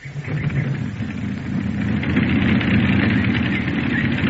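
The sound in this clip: A light aircraft engine runs after starting and settles to an idle near 800 RPM. It gives a steady, heavy low rumble that grows louder after about a second and then holds even.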